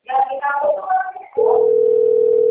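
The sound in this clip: A telephone tone on a call: a person talks briefly, then a loud, steady, single-pitched tone holds unbroken for just over a second.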